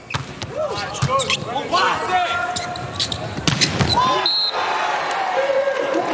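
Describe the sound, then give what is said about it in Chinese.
Volleyball serve during a match involving Brazil's team, with a few sharp ball thumps under loud crowd noise and a commentator's voice. “永贞来发球”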